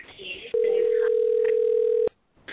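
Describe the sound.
A telephone tone sounds as a call is placed, one steady, unbroken pitch held for about one and a half seconds, with people talking before and around it.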